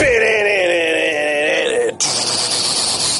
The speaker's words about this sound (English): That's a guitar.